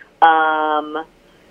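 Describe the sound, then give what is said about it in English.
An incoming phone call sounds as a loud, buzzing electronic tone that holds for nearly a second, then gives one shorter follow-up pulse before stopping. “Sorry, I had a weird phone call come in.”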